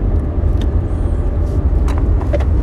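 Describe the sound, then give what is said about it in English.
A car's steady road rumble while driving to a doctor's appointment, a continuous low drone with even loudness throughout and a few faint higher noises flickering above it. “technology has come so far that I can do this from my car by driving to a doctor appointment”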